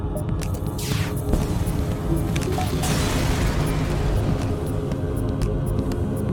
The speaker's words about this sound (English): The pirate explodes, leaving behind a substantial collection of useful scrap material.